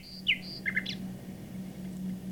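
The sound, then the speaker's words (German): A nightingale's faint chirps and short trills play back from a PC over an internet connection through a telephone line, a brief cluster of high notes over a steady low hum that continues after the birdsong stops. “Was hier fröhlich zwitschert, ist eine Nachtigall. Doch ihr Gesang kommt nicht etwa von einer Vogelstimmen-CD oder einem Tonband, sondern aus dem PC in meinem Arbeitszimmer.”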